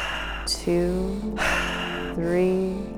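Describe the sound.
Deep breaths are drawn in through the nose and let out through the mouth during a breathing exercise: long airy inhales and exhales, each exhale ending in a soft sigh.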